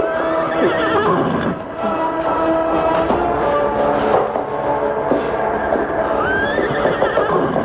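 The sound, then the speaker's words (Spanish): Exhausted horses whinny, with shrill neighs near the start and again toward the end over continuous hoof clatter and stamping. “Pobres caballos. Están a punto de morir. Sí. No pueden seguir adelante.”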